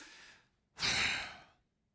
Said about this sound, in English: Do you understand a deep spiritual breath? It looks a little bit like this.